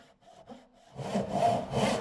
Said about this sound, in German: Man muss alleine schon die Säge eher so halten, als Verlängerung vom Arm und nicht so.